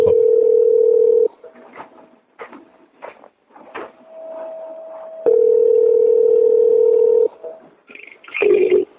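Steady telephone dial tone while a call is placed to link another person onto the line. Two long, unbroken stretches of the tone are separated by a few short clicks and bursts, and a brief cluster of higher beeps comes at the end.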